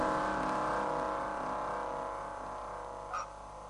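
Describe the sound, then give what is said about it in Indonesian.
A car engine hums steadily as the car pulls up and comes to a stop, the low rumble easing gradually toward the end. “Aku memberhentikan mobilku.”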